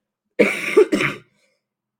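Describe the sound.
Hoarse coughing from a person with the flu: two rough coughs in quick succession, then silence, with another cough just beginning at the very end.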